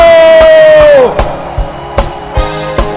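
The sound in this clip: Church audience crowd noise with cheering and shouting as a bishop is welcomed; a sustained voice-like tone slides down in pitch near the start, then a few sharp accented bursts rise over a steady, loud crowd roar.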